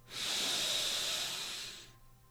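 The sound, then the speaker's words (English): A deep breath is drawn in through the nose as one long, airy hissing inhale. It swells in quickly, holds steady, then tapers off toward the end, alone with no voices. “let's take a deep breath in through the nose.”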